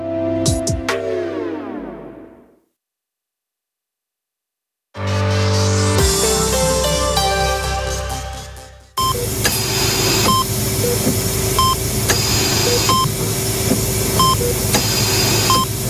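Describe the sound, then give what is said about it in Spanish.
Main office ambience: a ringing tone fades to silence, then electronic humming begins and settles into a constant murmur with regular, rhythmic beeps. “Así suena la oficina principal de Rafael Hernández Estefanía. Es un murmullo constante y controlado,”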